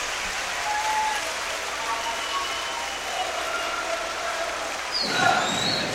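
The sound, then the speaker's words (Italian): Applause from an arena crowd cheering the home volleyball side during a match, a steady broad wash of clapping and crowd noise that stays even throughout and swells slightly near the end. “Qui alla Beta Ricambi Arena solo applausi per i propri beniamini”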